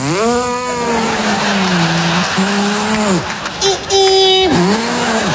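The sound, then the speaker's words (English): A voice imitates a Prius hybrid car pulling onto the freeway: a run of sustained, whiny engine-like hums with wavering pitch and short breaks, ending in a higher, louder held tone. “We got rid of one of the big giant SUVs and got a Prius. I don't know what you're laughing at. It's a great vehicle. You jump on the freeway and putt you, and it goes...”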